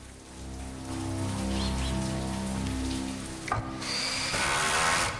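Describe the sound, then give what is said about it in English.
Heavy rain pounds on a terrace outside French windows, a steady dense hiss over a low tonal drone, with a brief sharp knock partway through. “Rain is pounding on the terrace outside the French windows.”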